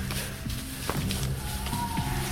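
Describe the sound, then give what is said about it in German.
Quiet, cautious footsteps of people creeping crouched over toward a front door, a few soft muted steps barely rising above a steady low background hum. “Wir laufen jetzt geduckt da erstmal rüber zur Haustür. Und zwar leise.”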